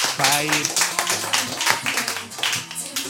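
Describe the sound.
Audience applause for a comedian at a live comedy night, a crowd clapping steadily while a host talks over it.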